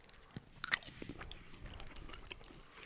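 Biting and chewing of a juicy blueberry-flavored food: a few soft, crisp crunches close together near the start, then quieter, continuous chewing. The sounds are faint and no one speaks.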